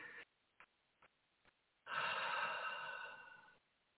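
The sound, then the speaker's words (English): A deep breath is drawn in and let out: one long, soft, steady rush of air that trails off at the end, preceded by a few faint, short breathy sounds. “All right, inhale, exhale.”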